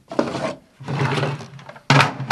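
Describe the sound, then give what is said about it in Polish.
Drawers of a wooden chest slide out in three separate bursts of scraping wood, each a rough, rumbling drag, the last one starting abruptly and loudly. “ja wyciągam jedną szufladę i wyciągam drugą szufladę poprzednio. One są takie same, ale jeżeli wyciągnę tą niżej,”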